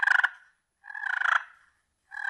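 A turkey call at a hunting and fishing show booth makes a rolling, trilled purr in three bursts: a short one, a longer wavering one, and a third cut off at the end, with silence between and no voices.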